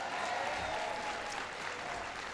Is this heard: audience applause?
yes